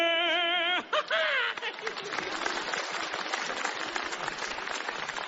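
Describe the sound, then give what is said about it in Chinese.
Audience applause breaks out after a short tonal opening, then settles into a dense, even patter of many clapping hands that continues to the end. “大家不要鼓掌了”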